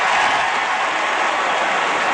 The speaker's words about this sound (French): Et ce sont encore l'ovation.